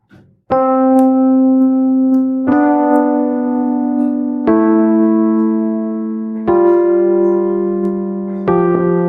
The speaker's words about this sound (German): Hier habe ich in diesem Beispiel eine chromatische Skala drin. Die habe ich auch tatsächlich als Beispiel.